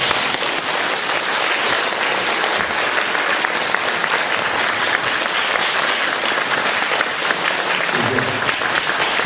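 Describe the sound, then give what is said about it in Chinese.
Dense applause from a small audience after a talk, a loud, steady wash of clapping that holds without pause for about nine seconds. “人不多，但是我听这个掌声就是几千人的掌声。”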